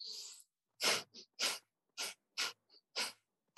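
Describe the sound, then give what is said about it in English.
Breath of fire, rapid panting breath through the nose during a breathing exercise: several sharp, forceful nasal exhales in an even rhythm, some strong and some lighter, with clear gaps between them and no talking. “that same panting breath, but through the nose, that we call breath of fire. And we'll do this for just a couple of minutes and see how you feel.”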